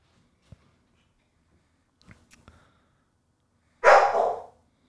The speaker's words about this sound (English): Once again, our apologies for the dogs. You know, they are a part of the podcast also.